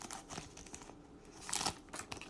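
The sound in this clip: A trading card pack being torn open gives faint, crinkly rustling and tearing of the wrapper in several short bursts, with quiet gaps between them.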